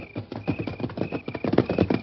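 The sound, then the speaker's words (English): Several horses come clip-clopping in when called, a dense, loud run of rapid hoofbeats that keeps on throughout. “Well, them's prime horses. Maybe we can use them. Here's our horses.”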